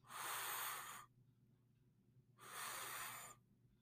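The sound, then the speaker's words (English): Two deep inhales through the nose during a guided breathing exercise for stress and pain relief: two faint, airy, hissing breaths, each about a second long, separated by a quiet pause. “So, two deep inhales through your nose.”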